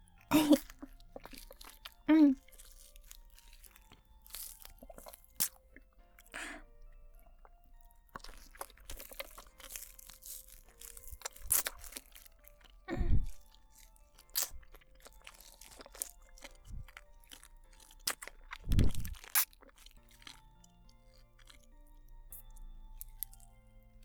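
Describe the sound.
Someone eats, crunching and chewing food: a few loud, sharp crunches stand out among stretches of quieter chewing and soft mouth sounds spread across roughly twenty-four seconds.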